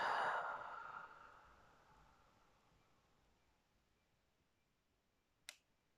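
Slow breathing during a guided meditation: one soft breath out fades away over about two seconds, then quiet follows and one small click.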